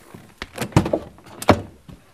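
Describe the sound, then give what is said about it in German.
Car doors of a GTS sports car with a V8 biturbo engine are opened, giving several sharp latch clicks and dull mechanical thunks spread unevenly over a couple of seconds, with no voices. “Könnt ihr mal die Türen öffnen.”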